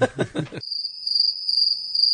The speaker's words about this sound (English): Crickets.